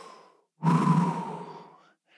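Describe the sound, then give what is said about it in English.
A person demonstrates a deep breath: one long, audible sighing exhale of about a second, strong at first and then slowly fading, standing alone with no other sounds. “took a deep breath like this”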